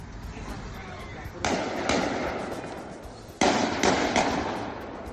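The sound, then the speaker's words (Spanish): Kalashnikov rifle gunshots from a video shared on social media of a shooting at two people in Belgium: sharp, loud cracks in two separate bursts of a few shots each, over a steady background hiss. “Se ha bajado con un Kalashnikov en la mano y ha disparado contra 2 personas. Este es el sonido del vídeo difundido en redes.”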